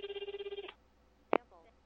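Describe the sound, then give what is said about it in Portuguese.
A mobile phone rings during a late-night call. A rapid, pulsing electronic trill repeats in quick bursts for under a second, then stops, and one short sharp blip follows. “resolvemos checar com esse veterano aí, ligando pro celular dele no meio da noite.”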